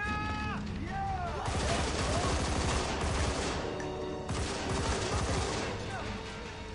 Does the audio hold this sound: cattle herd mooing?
no